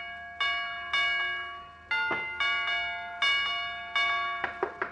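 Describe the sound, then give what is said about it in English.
A doorbell rings as a visitor presses the button again and again. Many bright chime strikes each ring out and fade, in an uneven rhythm that quickens into a short cluster at the end. No one speaks. “Oh, it's Doc Gamble pressing the button.”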